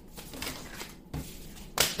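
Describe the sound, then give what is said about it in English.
A deck of cards spilling out, soft papery flutters and slaps followed by a sharper crisp burst near the end. “All these cards fell out. I'm not taking them.”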